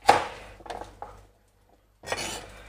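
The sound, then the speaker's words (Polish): A knife cuts food into bite-sized pieces of about 2–3 cm, giving a few sharp knocks and clatters against a board, then a short silence before another cut. “Kroimy.”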